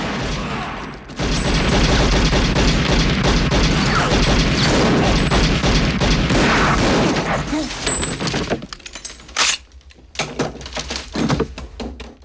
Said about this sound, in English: A man springs out with a machine gun. He kills him and three others.